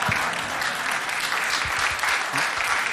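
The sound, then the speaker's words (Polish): Dense, steady audience applause at a live event, sustained at an even level for the full three seconds without a break. “Bardzo prosimy o klaski”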